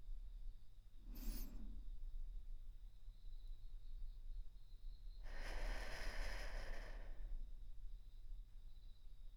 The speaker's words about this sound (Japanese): では鼻から大きくゆっくりと息を吸って、